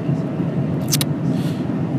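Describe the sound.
Constant low engine and road rumble is heard from inside a moving car, steady and even, broken by one brief sharp click around the middle.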